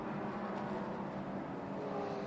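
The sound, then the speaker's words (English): The GS-class field of race cars, among them Honda and Aston Martin entries, streams past the start-finish line as a faint, continuous engine roar with no single car standing out. “as the GS field stream past the Ford Racing Global Broadcast Centre, the start-finish line, to start another lap there”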